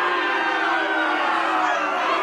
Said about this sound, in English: Oh, wow. They're booing. They're booing. They should be.